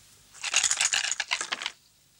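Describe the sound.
Several dice rolled during a board game of conquering Roman-era territories: a quick, bright clatter of tumbling clicks lasting about a second and a half, then quiet.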